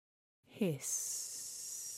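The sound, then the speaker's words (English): Gas hisses from a stove knob turned ever so slightly on a cooker. A faint, steady, high-pitched hiss holds for over a second, just after a brief voiced sound. “hiss. And oh, fuck me, it's gas. Of course it's gas.”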